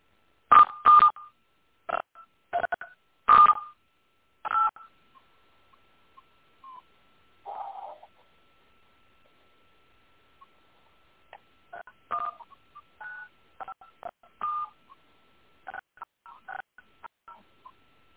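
Touch-tone keypad beeps from a phone line as a caller keys in a host PIN. Many short, sharp, fairly loud tone bursts come in irregular clusters separated by gaps, with no voices.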